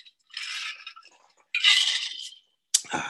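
Iced herbal tea with cacao, ginger and turmeric being sipped: three bursts of wet, slurping, crunchy drinking noise separated by silence, the last opening with a sharp click.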